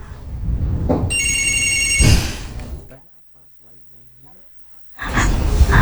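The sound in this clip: A telephone rings for an incoming call: a short, bright electronic ring tone over loud rushing noise. A near-silent pause with a faint voice follows, then the noise returns.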